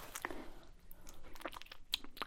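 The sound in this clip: Eating honey during an ASMR roleplay: faint, close-up crunchy bites and chewing clicks come in an irregular stream, with brief sharper crackles between softer mouth sounds.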